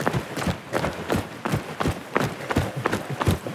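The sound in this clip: A smartphone strapped at the shoulder knocks against it with every stride during a run, giving many quick, evenly spaced thuds in a steady rhythm without pause.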